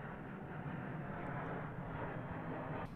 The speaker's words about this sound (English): in case you heard that was a plane going by.